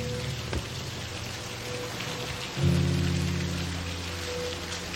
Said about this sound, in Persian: چه بارون میاد